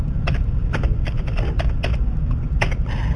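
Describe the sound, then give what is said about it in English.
Rapid, irregular keystrokes on a computer keyboard as someone types into a text chat, the clicks crisp and fairly loud over a steady low hum. “Okay, so what I'm doing it, I'm writing everything here in the text chat, and then we will review.”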